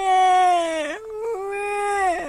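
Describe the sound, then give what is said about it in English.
A storyteller's voice imitates a small child bawling. Two long, drawn-out wails are separated by a brief break, and the harmonic crying slides down in pitch at the end of each. “Now, please don't get fussy," said her daddy. Well, she had no choice, so Trixie bawled.”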